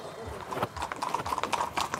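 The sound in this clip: Horses' hooves clip-clop as the animals are walked back to the stable after a competition, an irregular run of sharp hoof strikes with people talking over them.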